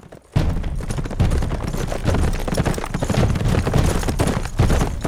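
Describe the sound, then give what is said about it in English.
Hooves of five riders' horses coming into a tiny Old West town: after a brief quiet moment, a loud, dense, irregular clatter of hoofbeats starts abruptly and keeps going without voices. “Outside of the bar, 5 men from the Nelson gang rode into the tiny town.”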